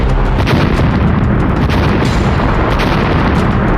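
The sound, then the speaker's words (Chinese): Bombs exploding one after another as they fall on a cheering crowd during a military exercise, a continuous loud, dense rumbling roar of blasts merging together with no clear gaps between them. “突然间炸弹接二连三地掉了下来，欢呼声瞬间被爆炸声淹没”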